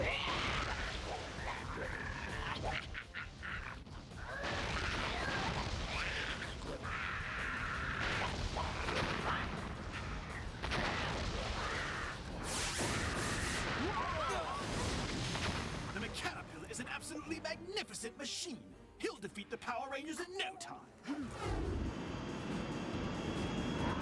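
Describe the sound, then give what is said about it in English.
Sci-fi Quadra fighter aircraft attack the Zord holding bay, with roaring jet engines mixed with repeated bursts of gunfire and blasts, loud and dense throughout. “Oh no! The Quadra fighters are attacking the Zord holding bay!”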